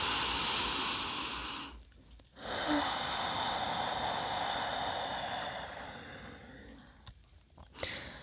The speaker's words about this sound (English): Take on one more deep breath.